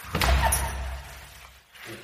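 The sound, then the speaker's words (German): A door being locked with a key: a short dull thump at the start, then softer knocking noises that fade before a faint final rattle, quiet overall. “Hast du einen Schlüssel? Ja. Bist du sicher? Ja. Kannst du die Tür abschließen?”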